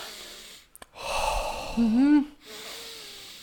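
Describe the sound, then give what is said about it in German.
Deliberate deep breathing: two short clicks, then a long, audible inhale, followed by a voiced, sighing exhale that wavers in pitch, and softer breathing trailing off. “dann tust du erstmal 10 Minuten lang bewusst atmen”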